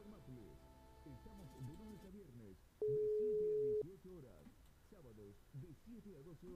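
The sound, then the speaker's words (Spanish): A telephone line tone sounds while a call is being placed: one steady, mid-pitched tone lasting about a second, heard over ongoing voices. “Vamos a llamar a Raquel, a ver si nos podemos comunicar con ella, que está esperando nuestra llamada.”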